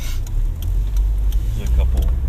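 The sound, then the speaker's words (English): A car engine rumbles low and steady while driving on a long commute, the drone holding through the whole stretch under faint, muffled talk. “I drive and I talk during that time, and yes, there's going to be some background noise.”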